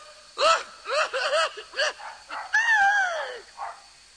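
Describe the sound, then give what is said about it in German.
Dog barking: a short series of bright, yelping barks from a woman's dog, then a longer, drawn-out whining cry and one faint final yelp, moderately loud and with no talk. “Ein Hund, das ist ja der Hund von der Frau Rein.”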